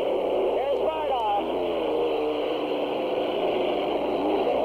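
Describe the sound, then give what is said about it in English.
A racing boat engine runs smoothly in a steady, even drone while a voice talks over it. “Pulling it on, boat's running well, nice and smooth.”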